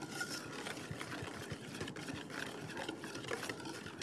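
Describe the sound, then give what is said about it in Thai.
A mixture of water and a base ingredient is stirred until it blends: a continuous swishing, scraping texture with a steady rhythmic pulse, moderately quiet and heard alone. “ต้องสังเกตว่าจะเห็นว่ายังแยกเป็นส่วนอยู่นะคะจะต้องกวนให้เข้าเป็นเนื้อเดียวกันแล้วค่อยเติมลงไปอีกนะคะ”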